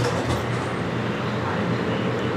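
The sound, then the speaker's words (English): A light rail train pulling in makes a low rumbling and rushing sound. It forms a steady, fairly loud wash of noise with no distinct separate events. “Not far from the camp, a light rail train is pulling in.”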